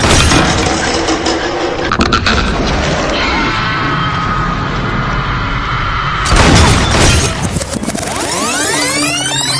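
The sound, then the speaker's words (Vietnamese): A gunshot fired in a haunted hospital in a ghost story, heard as a loud sharp crack amid crashing, shattering effects, followed by eerie sweeping tones at the end. “Kha Lương và Tần Cẩm chạy tới giữa cầu thang thì nghe thấy tiếng súng”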